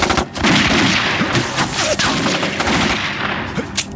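Rapid gunfire rattles out in many loud, closely spaced shots, fired steadily until the gun runs out of bullets.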